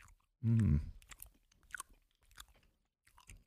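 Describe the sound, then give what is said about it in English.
Biting into and chewing a burger-shaped Krabby Patty gummy candy: a loud, muffled burst at the bite, then several soft, irregular chewing squishes and clicks. “I took a bite like a burger.”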